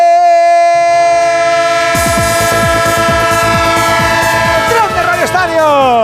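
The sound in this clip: Train sound effect: a loud, sustained chord of horn-like whistle tones that enters about a second in, joined by rhythmic clattering of wheels on rails and falling pitch sweeps, with no talk over it.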